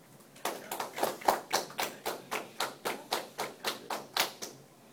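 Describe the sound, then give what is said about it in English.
Hand claps beaten out as a run of beats for counting, many sharp, evenly spaced claps in a steady rhythm with no talk, the last few slightly softer before the sound stops. “So when I did the clapping, when I went, can you do it?”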